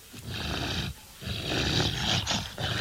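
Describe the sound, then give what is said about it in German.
Dogs snuffle and pant in breathy, snort-like bursts, a few noisy surges with a short lull between them, moderately loud with no voices. “Nimmt irgendwer die Hunde weg? Kommt her, Jungs. Na, kommt schon. Die Tiere sind etwas beängstigend, finden Sie nicht?”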